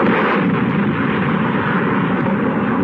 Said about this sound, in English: This, the first mass bombing from the air of a helpless civilian population.